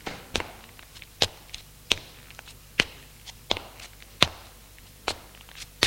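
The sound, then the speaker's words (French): Heavy footsteps of a woman walking through an unlit hall toward the stairs: a slow, regular series of sharp, thudding steps, each with a brief scuffing tail, alone with no voices. “Son pas est de plus en plus pesant.”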